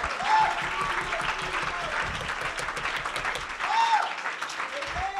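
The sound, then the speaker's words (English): Congregation clapping hands to the Lord during a church service, a busy, moderately loud patter that swells and dips, with voices calling out over the clapping. “Oh, if you believe that, would you clap your hands unto the Lord?”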